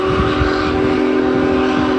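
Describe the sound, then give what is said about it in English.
Steam whistle of Union Pacific No. 4014, the Big Boy steam locomotive, crossing the Cuyahoga River between downtown Cleveland and Tremont. A loud, steady chord-like tone holds unbroken for the whole stretch over a low, rumbling undertone. “A few hundred people watched from the towpath trail as Big Boy choo-chooed”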